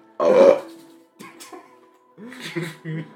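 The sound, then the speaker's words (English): A loud, throaty burp from a person, short and low, followed by a few moments of quiet and then people talking. “He burps when people talk about him.”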